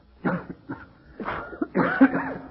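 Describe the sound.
Coughing follows the blowing of dust off a hotel register: a few harsh, irregular coughs and throat-clearing bursts, moderately loud, with no speech.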